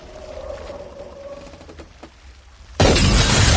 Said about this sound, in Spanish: La presión rompe las cristaleras.